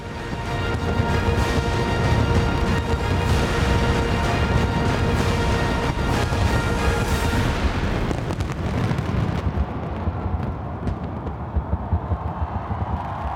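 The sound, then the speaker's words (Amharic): Fireworks at a New Year's light and fireworks show in Melbourne's city centre: a dense, unbroken barrage of booms and crackling bursts that stays loud for the whole clip. “ኣብ ሜልበርን ልዕሊ 350,000 ናብቲ ማእከል ከተማ ንግዲ ወይ ሲቢዲ ምርኢት ብርሃንን ርችትን ንምዕዛብ ዓሲሎም።”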